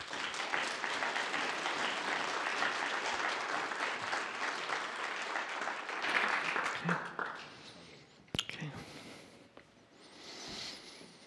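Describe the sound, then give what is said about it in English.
Audience applause welcoming a speaker onto the stage at a talk about loss and hope. Dense, loud clapping holds steady, then thins out and softens toward the end. “So let's give a big, warm welcome to Dave.”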